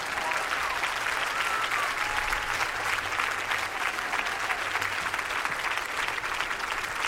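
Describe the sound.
A concert audience applauds a singer and a duo as they are welcomed on stage, with dense, steady clapping that holds at an even level throughout.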